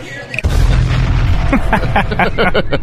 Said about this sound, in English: Somebody dropped a bomb on all those crickets is what it sounded like.